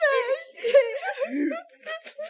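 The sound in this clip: A man's wailing, moaning cry, a king lamenting his hunger, made of long quavering voiced tones that waver up and down, then a few short sobbing bursts near the end.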